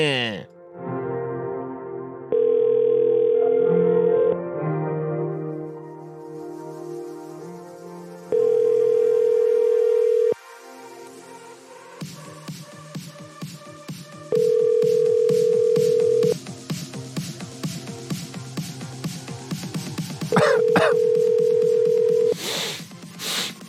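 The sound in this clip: Telephone call tones play before a voicemail answers: four steady, mid-pitched ringback tones of about two seconds each, evenly spaced, over a busy backdrop of other tones and clicks.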